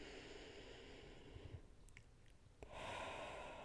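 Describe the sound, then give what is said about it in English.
Slow, deep breathing from someone being calmed through distress: two long, airy breaths separated by a short pause, soft and hushed, with faint mouth sounds between them. “Focus on taking deep breaths, just like we practiced.”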